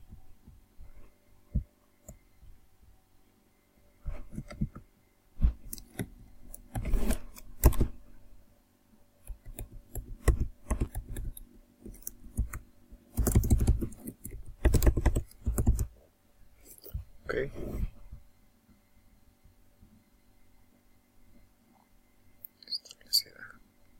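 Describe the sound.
A password being typed on a computer keyboard, with rapid clattering key clicks in irregular bursts separated by short pauses, over a low steady hum.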